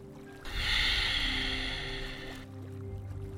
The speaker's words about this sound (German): Einatmen, ausatmen. Einatmen, ausatmen.